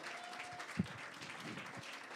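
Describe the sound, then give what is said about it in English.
A church audience claps its hands in praise, a faint but steady, dense spread of applause from many people. “One more time before you're seated, would you clap your hands and just give Jesus a great praise?”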